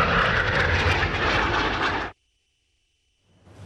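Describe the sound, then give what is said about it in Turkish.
Loud roaring of Turkish Air Force aerobatic team jets at an air show. A dense, broad roar holds for about two seconds, cuts off abruptly into silence, then a faint rumble begins to return. “Geçmişin pervaneli uçaklarıyla başlayan gösterinin finalini Türk Hava Kuvvetleri'nin Akro timi Türk Yıldızları yaptı.”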